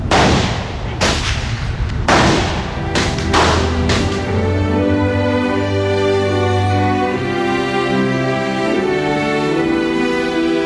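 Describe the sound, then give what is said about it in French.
Powerful rifles are fired at a shooting range: several loud, sharp cracks come in quick succession during the first few seconds, and a sustained tonal wash follows. “Là, c'est vraiment des fusils très puissants, quoi. It's free. You just have to buy your ammo and your targets here, and they let you shoot free.”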